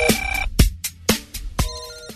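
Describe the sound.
A telephone rings with an electronic ringtone: a rhythmic series of bright tonal bursts with sharp onsets repeating steadily, heard alone without any talk.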